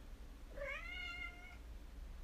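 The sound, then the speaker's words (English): A house cat gives a single, drawn-out meow, faint and clear, rising at the start and holding a steady, slightly falling tone for about a second over a soft, quiet hum. “That's my cat.”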